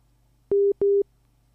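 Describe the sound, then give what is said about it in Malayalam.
Telephone busy tone after a phone-in call is cut off: two short, identical beeps at one steady pitch, separated by a brief gap, over a faint low hum. “ആ call കട്ടായി.”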